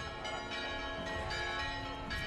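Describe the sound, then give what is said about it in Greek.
Church bells ring joyfully at the church of the Virgin on Tinos during a feast-day gathering of pilgrims. The peals overlap in a dense, loud and steady wash of tones with no single strokes standing out. “οι καμπάνες χτυπούν χαρμόσυνα”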